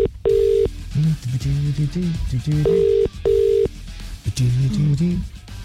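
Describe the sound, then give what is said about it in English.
Telephone being dialled: several steady, loud electronic tones of even pitch alternate with a voice talking between them. “So let's dial them all up now.”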